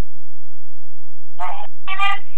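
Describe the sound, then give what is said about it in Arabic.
Telephone ringing with an incoming call: two loud bursts of buzzy electronic trilling after near silence, the second a little longer than the first. “لدينا اتصال آخر.”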